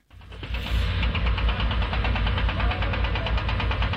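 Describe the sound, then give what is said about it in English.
Heavy machinery at a building site in the hills of Hebron, with diggers, cranes and lorries delivering caravans: a loud, continuous diesel engine drone with a rapid knocking pulse, steady throughout and without voices. “This is the sound of the heavy machinery that's reshaping the landscape in the hills of Hebron. Diggers, cranes, and six lorries delivering high-end caravans.”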